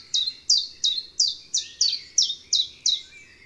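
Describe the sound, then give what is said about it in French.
A bird singing in trees repeats one high, downward-sweeping note nine times in an even, hopping rhythm. The notes are clear and loud over a quiet background. “Il chante toujours dans les arbres et c'est toujours la même chanson.”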